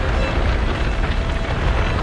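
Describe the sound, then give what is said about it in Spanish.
A ship burning and being consumed by fire, heard as a loud, steady roar of dense rumbling noise that holds without a break for the whole clip. “Tremal Nike y las dos jóvenes suben a la chalupa y se alejan del rey del mar que está siendo consumido por el fuego”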